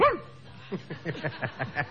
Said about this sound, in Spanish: una pequeña cachorra chilena, que es una gran fanática tuya. Dice, mire, hasta los perros, ¿no? ¿Cómo es? ¿Se encuentra presente?